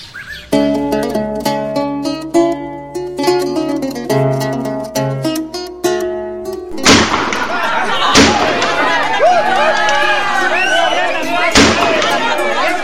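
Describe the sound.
Gunshots ring out in a battle between revolutionary fighters and federal troops. Music plays first, then a few sharp, loud bangs cut through a continuous noisy rumble of combat.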